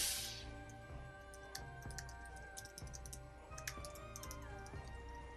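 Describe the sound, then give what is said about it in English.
Soft typing on a computer keyboard, with scattered light clicks at an uneven pace. It is faint and sits over a steady electrical hum, with no talk. “let me type this in”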